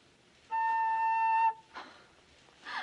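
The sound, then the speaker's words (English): Holed sweets blown through as a whistle give one clear, steady high tone lasting about a second, followed by a couple of soft breathy puffs. “But they whistle. Whistle? Those, holes. You just blow through them.”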